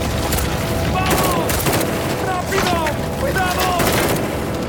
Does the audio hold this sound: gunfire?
yes